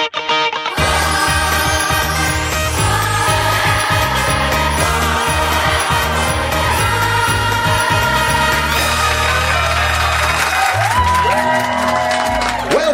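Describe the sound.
Festive Christmas arrangement of a TV show theme tune, loud full music that starts after a brief moment and plays steadily to the end.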